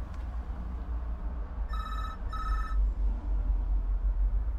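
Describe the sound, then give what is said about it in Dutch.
Telephone ringing with two short electronic ring bursts in quick succession, bright and tonal, over a steady low background rumble. “Ja, neem nou even op, hij gaat toch over?”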